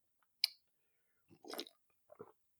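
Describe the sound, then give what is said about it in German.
Someone sips coffee: a sharp mouth click, then a few soft, wet slurping sounds, quiet and isolated with silence between them. “Und dementsprechend trinke ich jetzt erstmal einen Schluck Kaffee,”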